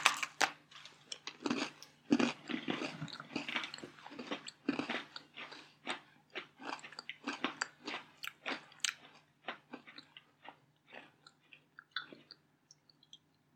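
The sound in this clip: Biting and chewing a Double Stuf Oreo cookie gives many crisp, dry crunches in an irregular rhythm. They come dense and loud at first, then thin out and grow fainter toward the end, with no talking.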